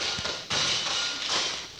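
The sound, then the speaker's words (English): Mice scurrying and thumping in a house, heard as a few soft taps and dull thuds over a steady hiss. “Oh, dear. What was that? That? Mice. Mice? Well, just a couple of them, of course.”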